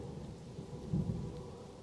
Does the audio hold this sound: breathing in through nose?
no

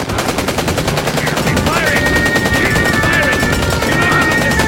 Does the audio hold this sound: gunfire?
yes

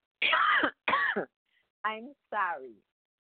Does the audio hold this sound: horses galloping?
no

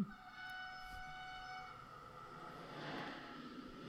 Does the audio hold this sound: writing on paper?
no

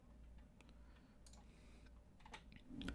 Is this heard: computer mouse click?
yes

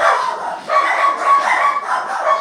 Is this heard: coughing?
no

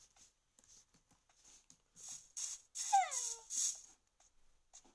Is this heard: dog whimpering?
yes

